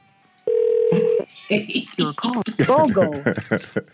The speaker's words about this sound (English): we'll dial the last number. Notified on her phone that I'm calling her.